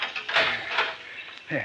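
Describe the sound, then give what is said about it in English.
Metallic rattling and grinding of a padlock being unlocked on a cemetery vault door at midnight, a short burst of scraping clanks followed by a brief voice at the end. “I'll have the padlock off in a minute.”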